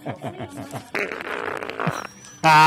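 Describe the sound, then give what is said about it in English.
A fart from a person: a short, loud, buzzy burst comes near the end, after stretches of other mixed sounds. “No farts were faked here.”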